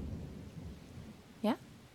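A thunderstorm rumbles low and soft under steady rain-like noise, with a brief sharp rising tone standing out near the end.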